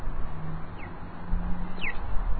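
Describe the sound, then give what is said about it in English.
Electronic bird-call chirps from a pedestrian crossing signal: two short, high, downward-sliding tweets about a second apart, faint above a steady low street rumble and hum. “That bird means that you can cross the street.”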